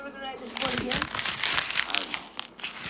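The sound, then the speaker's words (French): An envelope is torn open: paper crinkles and rips in dense, crackling bursts, and a voice talks over the rustling. “L'ouverture d'une enveloppe. La lecture d'un nom. Un avis d'expulsion.”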